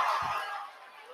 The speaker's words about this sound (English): Have you ever heard a crowd roar like that?